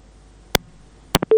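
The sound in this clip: Telephone tones after a radio call-in drops: two sharp clicks, then a pair of short beeps leading into a steady, sustained electronic tone.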